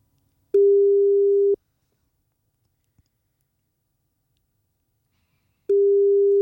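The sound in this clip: Ringback tone of an outgoing phone call to a sleeping person's wake-up line: two steady one-second beeps about four seconds apart, with silence and a faint click between.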